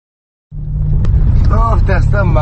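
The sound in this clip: A car drives along a potholed road in Areshperani, its low engine rumble starting abruptly and continuing steadily while a man talks over it.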